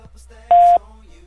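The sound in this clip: A voicemail tone sounds after a recorded message: one loud, steady mid-pitched beep lasting about a quarter second, with only a faint low hum before and after it.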